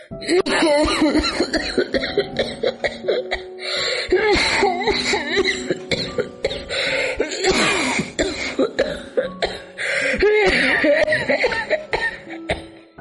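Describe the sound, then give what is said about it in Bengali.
A woman coughs in repeated harsh fits, many loud, chesty coughs in close bursts with brief throaty catches and gasps between them. “গল্প শেষ হতে না হতেই খক খক করে কেশে উঠল”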